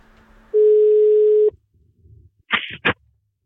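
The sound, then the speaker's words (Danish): A telephone ringback tone sounds while calling a Lions Club president. One steady, mid-pitched electronic tone lasts about a second, then after a quiet gap come two short, loud bursts of noise. “så derfor så ringede vi tidligere til øh, Tage, som er præsident for Lions Club Nibe, og det lød jo sådan her.”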